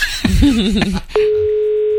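A steady telephone dial tone cuts in abruptly after about a second of wavering, melodic sound, then holds one unbroken, loud mid pitch to the end as a call is placed.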